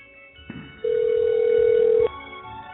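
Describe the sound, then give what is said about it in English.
A single steady ringback tone sounds on a long-distance call placed through an internet phone service, a plain sustained note of about a second against faint line hiss. “And because it's dialing Blog Talk Radio, and then it says dial 1 to speak to the host. Hmm. Do you have to dial a 1 to dial a long distance with Google Voice?”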